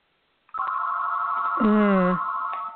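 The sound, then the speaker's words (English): An electronic phone ringtone sounds in the background: a steady, continuous beeping tone that holds throughout, with a brief voice over it partway through. “I apologize for my phone ringing here in the background.”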